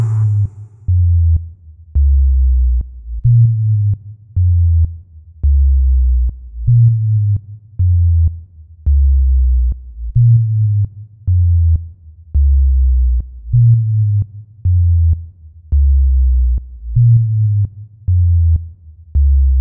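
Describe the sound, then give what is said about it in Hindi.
Viral humming bass remix from Medinipur: deep sine-like bass notes pulse in a looping pattern, with sharp clicks marking each beat. Loud, with short gaps between phrases, repeating many times. “अब सुनते हैं मेदिनीपुर की उस viral humming base को। इसकी आवाज का जादू आजकल सोशल मीडिया पर छाया हुआ है। सुनिए और खुद महसूस कीजिए इस जबरदस्त बेस को।”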